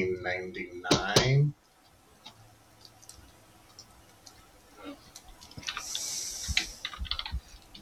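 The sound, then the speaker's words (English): Someone types a book title on a computer keyboard, producing light, irregular key clicks that are faint at first and then denser. A voice is briefly heard at the start. “You ever type in an entire book title and nothing happens? Hate that.”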